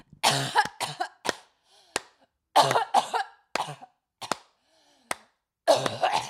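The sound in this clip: Repeated coughing from someone who breathed in dust off the top of a microphone: harsh, throaty coughs in irregular clusters with short sharp bursts between them, loud and with no talking.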